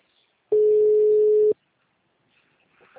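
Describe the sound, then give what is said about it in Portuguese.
A single steady telephone call tone while dialing, lasting about one second and standing alone in near silence, followed by faint low sounds at the end. “ligar pra aquela mãe aí.”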